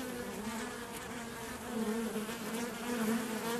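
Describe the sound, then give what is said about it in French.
Honey bees buzz beside beehives at a rural guesthouse, a faint, steady hum of many insects that swells slightly partway through. “Il faut savoir que là, on est à, un mètre euh, des ruches et qu'il n'y a absolument aucun souci.”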